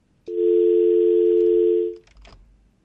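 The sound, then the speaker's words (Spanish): A telephone call tone sounds as one loud, steady, even tone held for about a second and a half. It cuts off abruptly and is followed by a few faint clicks. “Una llamada.”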